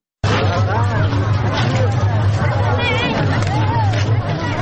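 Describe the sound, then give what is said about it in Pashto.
Crowd noise of fairgoers at an Eid fair in Tarinkot, Afghanistan, heard as a loud, steady hubbub of many overlapping voices with a low hum beneath. It starts abruptly and continues throughout. “دا شور او زوږ په ترینکوټ شار کې د میلیانو دی، نه د موټرو.”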